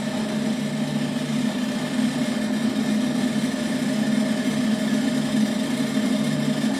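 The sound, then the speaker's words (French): Steady mechanical drone of a rope-making machine twisting four strands into rope while an operator guides the strands. It holds an even, humming tone throughout, with no talk. “À l'autre extrémité de la machine, l'opérateur insère une olive entre les quatre torons de manière à pouvoir avancer au fur et à mesure que la corde s'enroule.”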